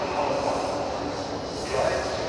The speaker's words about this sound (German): Aber wie ihr vielleicht hören könnt, bin ich gerade am Frankfurter Hauptbahnhof. Kapitän Jansen, der muss hier gleich mit der Bahn ankommen. Ja, ja, mit dem Zug.